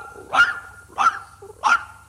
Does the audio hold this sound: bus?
no